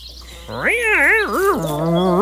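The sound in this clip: Voices imitating a siren, the result sounding more like a cat in heat: wavering wails whose pitch swoops up and down several times, then settles into a lower, steadier drawn-out tone.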